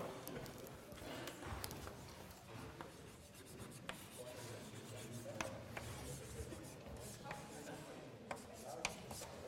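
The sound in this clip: Writing on a board during a maths lecture on the exponential and logarithm functions makes faint, continuous scratchy strokes with occasional light taps, low in level throughout.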